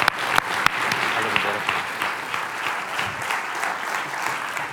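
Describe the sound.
Audience applause welcomes a speaker after a prayer, a dense, steady wash of many hands clapping that holds at an even loudness for the whole stretch, with no voices standing out.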